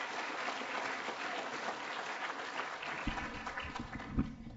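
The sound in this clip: Audience applause welcomes a guest chef onto the stage at a church gathering. It is a soft, steady clatter of many hands clapping at an even level from start to finish.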